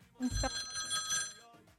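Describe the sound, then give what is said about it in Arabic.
A telephone rings for an incoming call, one bright, tonal ring burst lasting about a second and a half before it cuts off, fairly faint. “عدنا اتصال ونقول الو الو الو الو”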